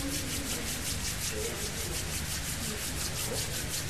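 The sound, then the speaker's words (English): Palms rubbing together briskly to build heat during a chakra-activation exercise, a steady, continuous dry friction hiss with a faint rhythmic swishing pulse and no pauses. “Samo nastavite trljati. Till it begins very hot. Sve dok ne postanu zaista vrući dlanovi.”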